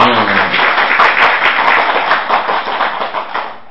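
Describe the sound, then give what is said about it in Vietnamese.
Loud, dense clapping from an audience at a Buddhist dharma talk, a continuous patter that holds steady and then eases off at the end. “Giỏi, ai nói vô minh đó, cho chào pháo tay.”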